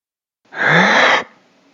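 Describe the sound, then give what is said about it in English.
A single deep inhale drawn in at a doctor's request during an examination, a loud breathy rush lasting under a second that rises in strength, then tails off into quiet. “Now, before I take a look, could you just take a quick breath in for me,”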